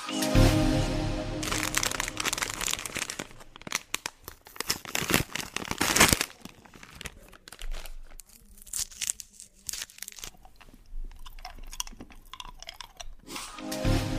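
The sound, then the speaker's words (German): Crinkling and tearing of wrappers as Emoy Karl candies are unwrapped: a dense run of crackly plastic rustles with sharper crunchy bursts, loudest near the middle, and no voices. “das ist, wenn man die legendären Emoy Karl Bonbons auspackt”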